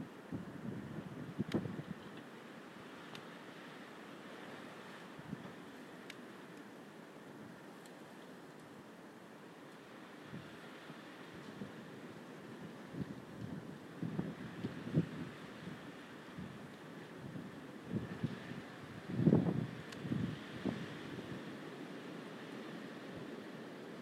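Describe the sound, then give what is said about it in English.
Wind rising outdoors: a faint, low rushing with irregular gusts that swell and fade, growing somewhat stronger toward the later part. “quite quiet, I think, but windy. There's the wind getting up now.”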